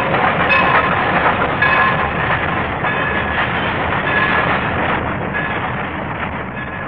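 A train rumbles loudly and steadily with a rhythmic clickety-clack from the rails, the dense noise holding constant and easing only slightly at the close.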